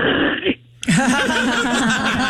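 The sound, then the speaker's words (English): A voice imitating the sound of hawking a loogie from the throat: gravelly, throaty vocal rasping in two bursts split by a brief pause, the second longer and wavering. “I wrote asterisk hawking a loogie sound.”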